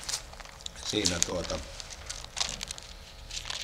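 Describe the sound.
Pages of a Bible flipped through in search of the Book of Ezekiel give soft papery rustling and crinkling, with a voice speaking briefly in the middle.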